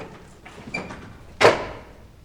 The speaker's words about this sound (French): Je vais fermer la porte.